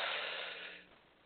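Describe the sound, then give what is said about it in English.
Deep breath drawn in during a guided breathing exercise, a soft airy rush that is strongest at the start and fades away over about a second, with no talk. “Time for our breathing exercises. Are you ready? We're going to, eyes closed. We're going to let it all go. Let's inhale.”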